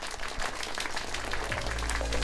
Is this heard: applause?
yes